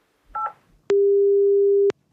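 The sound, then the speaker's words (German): A telephone places a call. A brief two-tone dialing beep is followed by a pause, then a single steady ringing tone that lasts about a second. Both tones are clean and electronic, with no voices. “Das Telefon wählt ja schon.”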